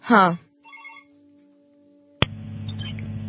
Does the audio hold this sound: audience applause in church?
no